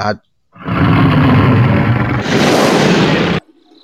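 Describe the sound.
A man imitating a roar, a loud, raspy, sustained growl of about three seconds that turns harsher and brighter in its second half before cutting off abruptly.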